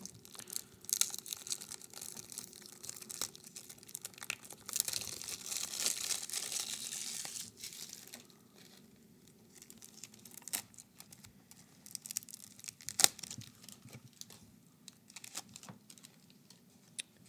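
Crinkling and tearing of packaging as two card decks are opened: a long run of faint rustles, crackles and small taps, busier at first, then quieter, then busier again.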